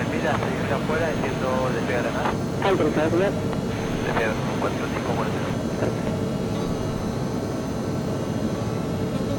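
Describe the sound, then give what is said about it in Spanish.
An airplane engine drones steadily as the autopilot decelerates it before landing, a broad continuous roar with a man talking over the first half. “Y cuando dijo Corrientes, va desacelerando la velocidad del motor. Todo producto del piloto automático.”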